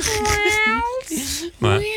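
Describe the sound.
A human voice imitates a cat meowing, with a few drawn-out, nasal mews that glide up and down in pitch.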